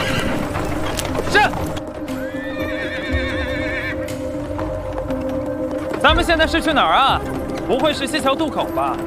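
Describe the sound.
A horse whinnies several times while hooves clip-clop, pulling a horse-drawn cart. The long, shrill neighs rise and waver above a steady low rumble.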